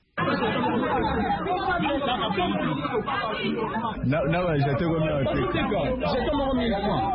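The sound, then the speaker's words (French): Noisy crowd of students at an enrolment centre on a Sunday: dense, continuous chatter and shouting from many voices that holds steady and loud throughout, with no pauses after a brief silent start. “Ces bruits ne proviennent pas du marché Gambela, c'est l'ambiance qui a régné ce dimanche au centre d'enrôlement à Lissandolo.”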